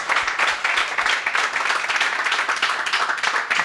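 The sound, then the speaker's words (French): Audience applause at a public talk on space science, a dense, continuous patter of many hands clapping at an even, fairly loud level. “Quelques applaudissements pour Xavier, s'il vous plaît.”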